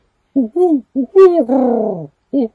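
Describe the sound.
A human voice imitates owls hooting at night, in a series of hollow, pitched hoots of different lengths, one long and wavering, heard alone with short pauses between them.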